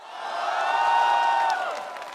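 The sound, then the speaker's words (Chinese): Audience applause and cheering at a smartphone launch event unveiling a new gaming chip, a dense crowd wash with sustained cheering voices that swells through the middle and eases slightly toward the end. “超级快，超级智能，超级酷，三个 super 引爆现场掌声与欢呼。”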